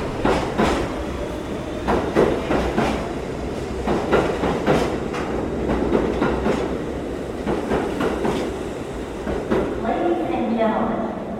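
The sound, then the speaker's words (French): A New York City subway train runs with a loud, continuous rumble and a repeating clickety-clack from the wheels, while a voice speaks over the noise. “Next stop on this train is Chamber Street, Brooklyn Bridge.”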